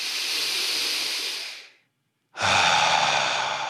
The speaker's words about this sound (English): Just take a couple clearing breaths in through your nose, out through your mouth.